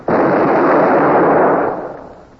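A ship's cannons fire at a shore battery in a naval action: one sudden, loud blast that swells into a broad roar and fades away over about two seconds.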